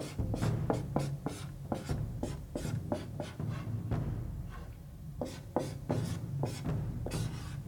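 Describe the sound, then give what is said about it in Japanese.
A marker writes words on a flip board in a studio: many quick, scratchy strokes in rapid bursts with short pauses between, fairly loud and steady, with no talking. “道に迷えば丸々な方へというフリップにその言葉をお書きください”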